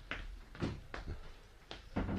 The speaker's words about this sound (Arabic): استنى اما اقفل الباب علينا.